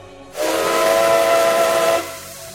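A steam train whistle gives one loud, sustained blast of about a second and a half. The tone is steady and breathy, set in strong hiss, and cuts off cleanly into quieter background.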